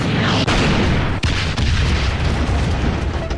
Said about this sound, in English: Jack pulls Curtis back to safety just in time before the entire stash goes up.